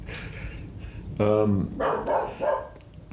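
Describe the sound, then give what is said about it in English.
Dogs in a studio react to thunder outside: a sudden drawn-out whine or howl, then a few short, sharp barks in quick bursts. “And it's thundering outside. Much to the consternation of the dogs.”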